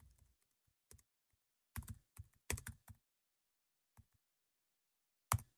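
Typing on a computer keyboard produces quiet, irregular bursts of clicking keystrokes with short pauses and a longer gap before a final few taps.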